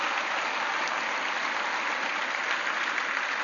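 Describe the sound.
Applause from a church audience standing to welcome college students back, a dense, steady patter of many hands that holds without a break.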